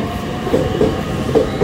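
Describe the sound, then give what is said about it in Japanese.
Rumble and clatter of a limited express train departing from a JR Joban Line station platform in Iwaki, Fukushima: a steady, loud mechanical roar with a few brief tonal swells and faint clicks, no voices. “発車しました。”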